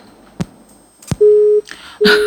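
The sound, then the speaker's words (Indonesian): A phone call cuts off into a busy tone. Two sharp clicks are followed by two steady beeps of a low, single-pitched tone, with a brief noisy burst over the second. “Ini langsung terputus. Apakah gangguan”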